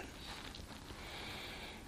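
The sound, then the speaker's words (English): A slow inhaled breath taken at the start of a yoga invocation, a soft airy hiss held steadily for about two seconds with no other sounds. “Read in or join in with me. Inhale.”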